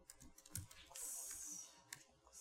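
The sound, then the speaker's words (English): Keystrokes on a computer keyboard during live coding on stage, heard as faint, scattered clicks in an irregular rhythm over a low hiss. “See how hard it is to type on stage?”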